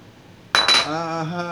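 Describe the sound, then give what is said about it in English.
A souvenir shot glass being handled: two quick, bright glassy clinks in close succession, followed by a voice speaking. “Empty Q ginger beer can. Shot glass. Phil Henry Show shot glass.”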